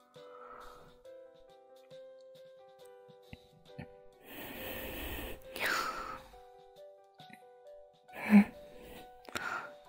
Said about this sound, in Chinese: 怎么了？眼皮很痒吗？抱歉，大概是我呼气全散在上面的原因。